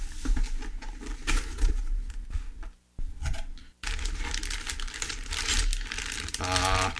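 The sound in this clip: Computer expansion cards are rummaged through in a box, giving loud rustling, crinkling and clattering with a couple of brief pauses.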